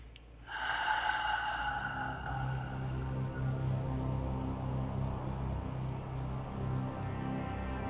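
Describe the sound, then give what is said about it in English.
Several people breathe in deeply together during a guided relaxation exercise, a faint, steady rush of air lasting for several seconds, with a ringing tone at the start that fades away. “Everyone take a big deep breath.”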